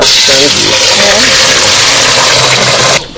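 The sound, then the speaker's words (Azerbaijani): Engine of a water delivery truck in Ganja, a loud, steady mechanical drone with a voice speaking over the first part, cutting off abruptly near the end. “Gəncədə əksər küçələrdə bu maşınları səsindən tanıyırlar. Səhərlər zil səsi ilə yatanları oyadır. Kimsə sürücüyə acıqlanmır, tələm-tələsik vedrəsini götürür. Su maşını gəlib axı, azacıq geciksə susuz qalar.”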